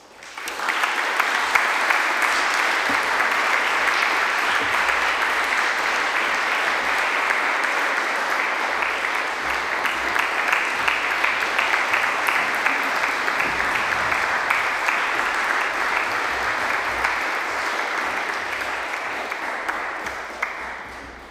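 Sustained audience applause welcoming the players of the Chinook Ensemble, a dense, even wash of many hands clapping that stays loud and steady for about twenty seconds before easing slightly at the end.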